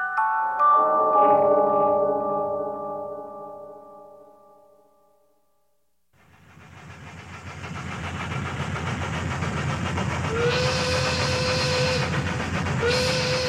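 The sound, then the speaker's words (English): A 19th-century steam locomotive travels through the American South in the summer of 1886, bound for Baltimore. A decaying tonal sound fades into a steady rumbling roar that builds from the midpoint, with high whistle-like tones near the end. “Summertime 1886. A locomotive winds through the steamy American South, bound for Baltimore, Maryland.”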